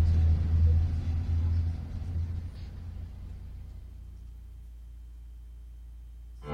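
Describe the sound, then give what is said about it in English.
A bus drives toward a visitor center, its low engine rumble loud and heavy at first, then easing down into a quieter, steady hum that holds until a brief swell at the very end. “This bus is headed back to the visitor center.”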